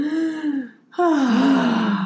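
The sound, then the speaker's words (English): Shallow chest breathing demonstrated close to a microphone: two short, breathy, gasp-like breaths separated by a brief near-silent pause, the second one louder and longer. “breathing in her chest and into the speaker or the microphone.”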